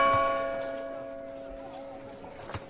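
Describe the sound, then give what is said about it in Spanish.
A church bell in the town of Belchite rings with a sustained, clear, resonant tone that slowly fades, and a faint knock sounds near the end. “deben de ser las dos porque la campana de la iglesia ha sonado dos veces”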